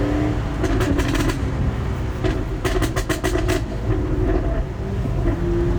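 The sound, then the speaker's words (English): A priceless Jaguar car's engine revs while driving around Lerwick in first gear at about 20 miles an hour. A loud, steady deep rumble carries surging bursts of roar throughout, with no talk. “What a privilege this morning to be driving around Lerwick in a priceless Jag. We'll just make a bit of noise again for your listeners.”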